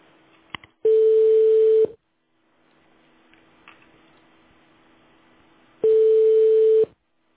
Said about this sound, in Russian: Абонент разговаривает по другой линии. Please hold on for answer or call back later. The number is busy.